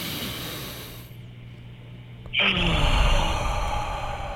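A deep breath during a guided breathing exercise: a long, airy inhale, a short quiet hold, then a louder, sighing exhale rushing out for about two seconds.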